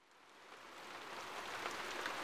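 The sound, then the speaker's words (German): Rain falling as a soft, steady hiss of drops that swells gradually louder over about two seconds, with no voices. “Warum regnet es?”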